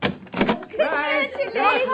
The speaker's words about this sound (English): For as you step from the elevator and she opens the door to let you in...